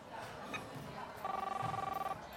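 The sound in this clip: Ringback tone of an outgoing telephone call: one faint burst of rapidly pulsing, steady electronic tone lasting just under a second over a low background hum.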